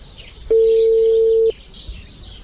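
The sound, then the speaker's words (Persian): A mobile phone call's ringing tone: one steady, mid-pitched tone lasting about a second, with birds chirping faintly throughout. “ما با موبایل فرزانه امیال زنگ میزنم که خبر شوه.”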